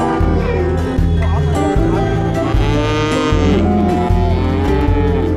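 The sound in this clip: Calves moo repeatedly at an annual livestock show on the grassland. The low, drawn-out bovine calls follow one another in close, overlapping succession over a busy background.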